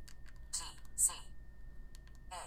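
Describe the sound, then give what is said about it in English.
Quick, light clicks of keys pressed to type text on a device's keypad. A few soft taps come in a fast, uneven run over a faint hiss. “Now I'm just going to type podcast file as I did earlier. I'm going to do that really quickly.”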